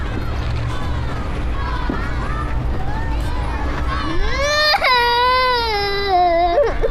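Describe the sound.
A child cries, with fretful whimpering that swells after a few seconds into a loud, high, wavering wail over a noisy background.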